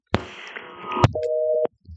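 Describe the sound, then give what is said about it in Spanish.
Phone line tone after a dropped call: a short steady beep at a constant pitch, following a brief burst of garbled line noise, with quiet afterwards. “Ay, se me fue la llamada. Parece como si alguien hubiese intervenido ahí en la línea y se hubiese caído.”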